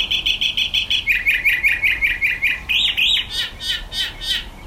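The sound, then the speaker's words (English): A mockingbird sings outside a window in the high desert mountains of Mexico: a run of rapid, evenly repeated chirps, then a slightly lower repeated series, then varied squawky phrases, loud and alone. “you can share a glimpse with us through sound, like this recording of a cenzotle, or mockingbird, shared by Flynn Wendling.”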